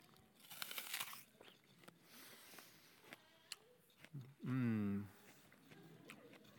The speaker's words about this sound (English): Not only does it look good, it tastes really good. It's not bitter, it's sweet. I'm tempted to have another bite.